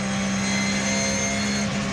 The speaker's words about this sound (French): Je peux dire que le moteur il est plein. Les 560 chevaux, on les sent bien. Et ils sont partout, à tous les régimes.